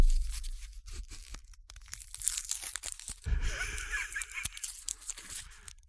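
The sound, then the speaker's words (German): Crinkly tearing and crunching as the plastic wrapping of a wooden chip fork is ripped open, a run of sharp rustling bursts that grows busier in the second half. “Ich reiß mal eben die Gabel auf.”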